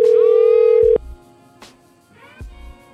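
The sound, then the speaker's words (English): A telephone dial tone plays steadily for about a second as a call is placed, then cuts off abruptly. A few soft thumps and clicks follow in otherwise quiet surroundings. “I call Danny and ask her.”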